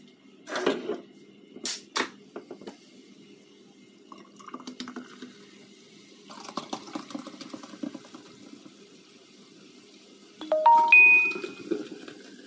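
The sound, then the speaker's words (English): A notification chime, a short bright ding of several stacked notes near the end. Before it come scattered faint clicks, taps and soft rustling. “I forgot to turn off notifications. Again, I keep doing that.”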